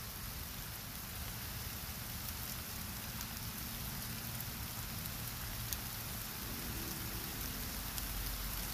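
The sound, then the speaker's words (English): Steady rain falls as raindrops patter on a surface, forming a continuous, even hiss that holds a constant level throughout with no voices. “Can you hear the raindrops?”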